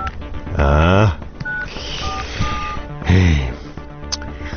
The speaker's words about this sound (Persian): از من زنگ بزنم به این پسره، اینا شمارش.